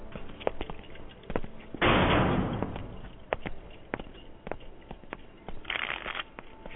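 Playing cards are shuffled in two quick riffling bursts, the first longer and louder than the second, among scattered faint clicks and taps.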